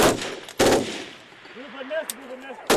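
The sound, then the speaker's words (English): Loud bursts of gunfire during a platoon's live firing exercise in North Denmark: a few sharp, crackling volleys, with a raised voice in the quieter stretch between them and a final burst at the end. “A platoon's on its first live firing exercise in North Denmark. It's a defining part of close combat.”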